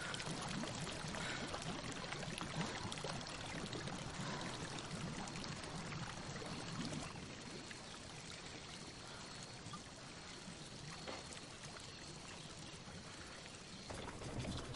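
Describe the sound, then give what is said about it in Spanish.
Water pours in a continuous stream gushing from a tree while a hand stirs the water, a steady, loud splashing rush that fills the whole clip with no voices. “Remueve el agua. Acaricia el chorro que brota del árbol.”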